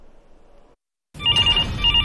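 A telephone rings on a youth mental-health counseling hotline for exam season, a loud warbling electronic ring in steady pulses that starts after a brief silence.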